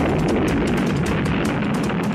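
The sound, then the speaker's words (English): A nuclear bomb explosion after a countdown in the Daisy ad: a loud, dense roaring rumble held at a steady level throughout. “little girl is pulling the petals off a daisy, and the countdown comes. 6, 8, 9. 3, 2, 1, the nuclear bomb.”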